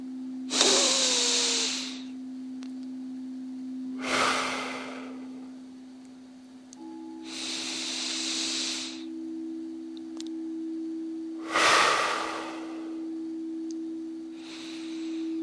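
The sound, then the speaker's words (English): Slow, deep breaths drawn to full lung capacity, five long airy whooshes spaced a few seconds apart, each swelling and fading, over a faint steady hum. “Can you few times breathe in the full capacity of your lungs?”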